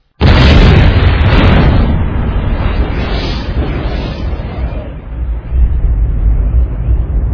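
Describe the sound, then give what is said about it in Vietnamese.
Thundering rumble of rock walls shaking inside a cave as an enraged giant eagle demon roars in a folk tale: a sudden loud boom swells into a sustained, heavy, deep rumble that lingers throughout. “Nó nổi giận gầm lên, vách đá ầm ầm rung chuyển.”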